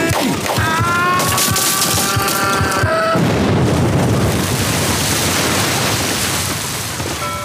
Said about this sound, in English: The sailboat detonated an explosive device that destroyed the vessel, along with four other relief vessels and 40 feet of dock space.